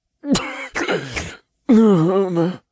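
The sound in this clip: A voice imitates the weak, sputtering cough of a half-drowned imp reviving after chest compressions and rescue breaths: three rough, groaning bursts, the last one longer and wavering, heard alone.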